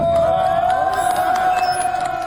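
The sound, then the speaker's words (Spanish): Crowd cheering breaks out after emergency teams in Nepal rescue two workers trapped in a hydroelectric station tunnel. The noise is dense and loud and continuous, with a sustained high tone running through it. “Son los aplausos por el milagro, el momento en el que los equipos de emergencia en Nepal consiguen rescatar a dos trabajadores que quedaron atrapados en el túnel de una estación hidroeléctrica”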